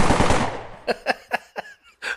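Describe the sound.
Machine gun sound effect: a dense rattling burst that fades, followed by several separate sharp bursts of fire spaced apart, loud and with no voices.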